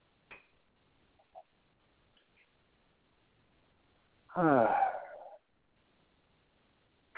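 One long, deep breath fills about a second, breathy and fairly loud against near silence, with only a few faint ticks before and after.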